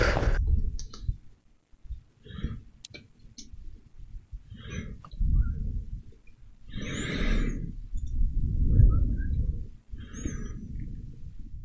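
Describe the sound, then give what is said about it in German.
Dice clatter repeatedly across a table during a tabletop role-playing game, with a series of sharp rattling, clicking bursts over a low background rumble. “Dann würfel ich nochmal.”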